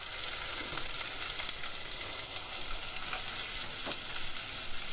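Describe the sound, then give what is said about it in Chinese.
Onions fry in a little oil in a pan while cooking a cream stew, giving a steady, bright sizzle dotted with small pops and crackles and no voices. “好，下一点油，油不用太多，先炒洋葱，把它炒软。”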